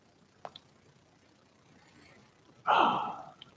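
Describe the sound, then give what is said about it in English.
A deep inhale and letting-go release during a guided relaxation breathing exercise: a faint soft click early, a quiet stretch, then a loud, breathy rush that swells suddenly and gradually fades away. “Taking a deep breath in and letting go.”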